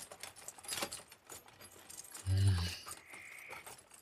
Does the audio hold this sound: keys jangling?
yes